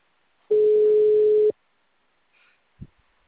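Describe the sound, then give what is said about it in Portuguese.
Telephone ringback tone while a call is being placed: one steady, mid-pitched beep lasting about a second, then near silence broken by a faint click. “Tá me chamando. Ó, tá chamando agora.”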